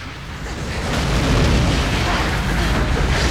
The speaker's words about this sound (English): The nuclear device flashes in Watkins' hand. It goes off. The blast shoots up the tunnel.